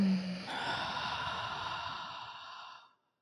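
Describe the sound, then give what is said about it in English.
A deep breath released in a guided breathing exercise: one long, breathy exhalation that lasts about three seconds and tapers off into silence. “Second breath, we're going to breathe a little bit deeper. Breathe in and release.”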